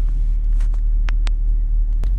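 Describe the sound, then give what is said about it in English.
A car driving in traffic gives a steady, loud, low rumble throughout, with a few faint ticks over the top and no voices. “All right, I'm driving, so there's a car in front of me just doing a weird thing right now.”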